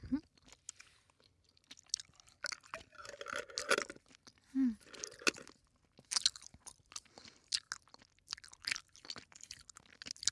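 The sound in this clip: Crunchy chewing of a pineapple-flavoured snack: many crisp bites and crunches come in irregular bursts separated by quiet pauses.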